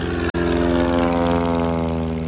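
Propeller aircraft engines at an air show drone steadily and loudly with a rich, humming buzz, broken only by a momentary dropout near the start.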